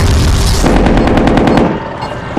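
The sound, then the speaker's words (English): Machine gun fire in a combat video game with shells and missiles rattles in a loud, fast burst of rapid rounds over a heavy low rumble. The rumble then eases off briefly before another loud hit. “Standard shells. Cruise missiles. Armor piercing shells. Machine gun.”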